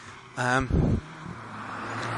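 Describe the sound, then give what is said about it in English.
A small car passing by at night, heard as a steady low rumble and hiss that swells slightly toward the end, with a voice speaking briefly near the start. “There you go. A little car coming past.”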